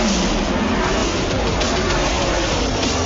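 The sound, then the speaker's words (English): Engine roar of the number 12 Ford Mustang stock race car, a loud, dense, steady roar that fills the whole clip without a break. “I drive the discount tire number 12 Ford Mustang.”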